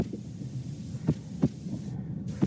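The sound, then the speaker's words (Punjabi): Low, muffled heartbeat thumps, presented as a bus driver's heart after being yelled at, pulse a few times over a steady low hum. “ਇਹ bus driver ਦੇ ਦਿਲ ਦੀ ਧੜਕਣ ਦੀ ਆਵਾਜ਼ ਹੈ ਉਸ ਉੱਪਰ ਚੀਕੇ ਜਾਣ ਤੋਂ ਬਾਅਦ ਬੇਇੱਜ਼ਤੀ ਕੀਤੀ ਗਈ”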